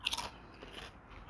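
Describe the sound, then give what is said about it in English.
A crunchy chip dipped in garlic dip is bitten with a few sharp, crisp crunches at the start, followed by quieter, softer chewing; faint overall. “Pick whatever type of chip you want and give it a taste.”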